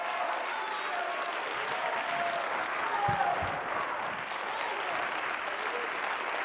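A church audience claps during a sermon, producing dense, steady applause that fills the whole clip at an even level with no pauses.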